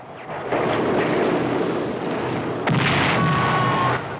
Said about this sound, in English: German tanks fire at the Allies on the beach. Take cover under the cliffs! The Allies run for cover, many of them being caught in the blast of shell explosions.